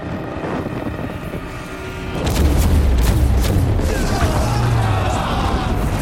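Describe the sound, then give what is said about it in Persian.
Cannons firing in a siege battle: heavy, low booming rumble that swells after about two seconds and stays dense and loud, mixed with crashing noise. “توپ‌ها را شلیک کنید.”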